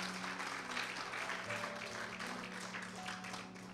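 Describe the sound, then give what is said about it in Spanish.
Congregation applause during a church service: dense, steady clapping from many hands that holds at an even level throughout, with a low sustained hum beneath. “Denle un aplauso fuerte al Señor.”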